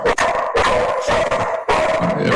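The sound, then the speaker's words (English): A dog barks loudly and repeatedly at someone at the door, a continuous run of harsh, overlapping barks with only brief dips between bursts. “I started talking USC Rutgers, and the dog, the underdog, started barking”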